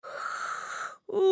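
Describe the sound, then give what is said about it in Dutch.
A voice imitates a big yawn with a long, breathy drawn-in breath, then a short pause and a sustained voiced tone. “Hij doet alsof hij ontzettend moet gapen.”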